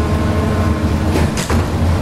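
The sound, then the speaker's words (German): A dough sheeter machine rolls cinnamon roll dough thinner and thinner, giving a steady, loud mechanical rumble and hum with a brief swooshing surge partway through. “sondern macht eben die schöne Maschine für uns. Wenn sie denn mag. So. Und dann wird der Teig immer platter gemacht.”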